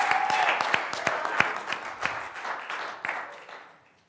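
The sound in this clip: A church audience claps to welcome a guest during a service. Distinct individual claps stand out within the applause, which gradually dies down to near silence.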